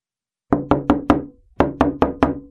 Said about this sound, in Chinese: 又有人急急地敲门